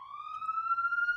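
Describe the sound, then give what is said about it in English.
Police siren sound effect: one steady electronic wail that climbs slightly in pitch across its short length, bright and clear with no other sounds. “If we can get that sound of the police drop.”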